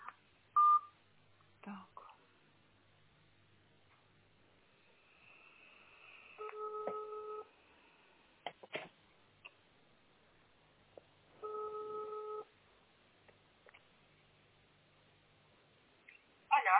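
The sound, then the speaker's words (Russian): Telephone dialing tones as a call is placed, heard as two longer multi-tone bursts separated by several seconds, with scattered faint clicks and short beeps in between, all quiet. “я сама тогда позвоню”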